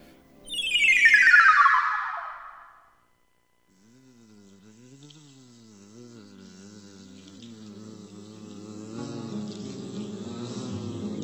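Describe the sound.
Bees buzz in the early morning while gathering pollen from flowers. A high whine sweeps downward, then after a short gap a wavering, droning hum sets in and slowly grows louder.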